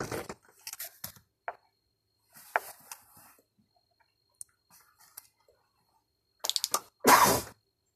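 A single loud, sharp sneeze bursts out near the end, after a stretch of scattered faint clicks, rustles and breaths with quiet gaps between them.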